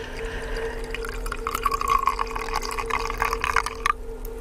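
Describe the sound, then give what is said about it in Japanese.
Hot water is poured from a ceramic vessel into a teapot holding new-season tea leaves, a soft steady trickle running for a few seconds and stopping abruptly, fairly faint over a low constant hum. “これポットから直接じゃなくて、陶器の入れ物でお湯を冷まして、うん、それを茶葉を入れた急須に入れていただくということですね”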